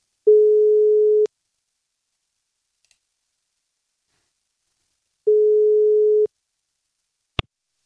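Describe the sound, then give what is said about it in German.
Telephone ringing tone after dialing a call, two identical steady one-second tones separated by a long silence, followed by a single sharp click. “wir rufen sie jetzt einmal an und fragen einfach mal, ja, wie denn überhaupt die Lage ist. So, wählen wir mal.”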